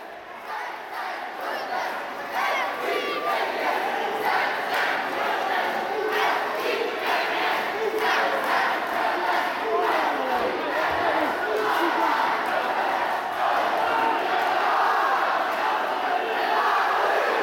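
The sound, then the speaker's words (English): Loud, continuous shouting and cheering from a crowd of boys in an indoor arena during summer camp tribal games. It is a dense roar of many voices that stays at full strength for the whole stretch without a pause. “what you're going to hear in the transition here is just what it sounded like in the Cobbodome today.”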